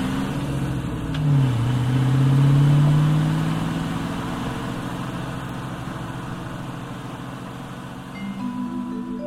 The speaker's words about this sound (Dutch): Hij rijdt achteruit. Durf jij dit? Roept Takel. Ik durf alles wat jij durft, roept Blixen. En hij raced achteruit van de berg af.